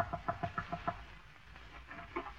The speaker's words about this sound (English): McGee, quit chasing those chickens. Come back here.